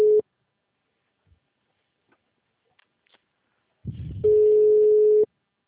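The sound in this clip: A telephone ringback tone sounds while a call to a client connects: the tail of one steady tone at the start, a quiet gap of about four seconds, a brief burst of low noise, then another steady tone of about one second.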